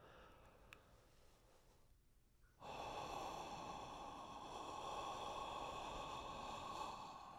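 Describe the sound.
Whispered exhalation on an 'ah' vowel during a vocal breathing exercise: a steady, breathy hiss that begins after a short quiet stretch and holds constant and even for about five seconds.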